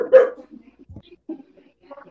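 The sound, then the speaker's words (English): A dog barks once, loud and sharp, right at the start, followed by softer low sounds and faint bits of talk. “Sorry, that's my dog. He agrees. The dog's agreeing.”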